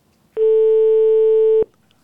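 A single steady telephone line tone sounds while someone is being called. It is a clean, even, mid-pitched beep lasting a little over a second, alone with no talk.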